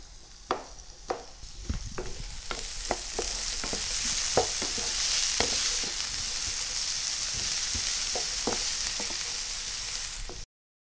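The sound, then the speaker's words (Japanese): Vegetables stir-fry in a hot pan: a steady, bright sizzle runs throughout, while many quick spatula scrapes and taps sound over it, thick at first and sparser later. “2分ぐらいを目安に炒めてください。じりじり音がしてきたら、そのまま火が強いと焦げやすいですから、中火にしてじっくり炒めていってくださいね。”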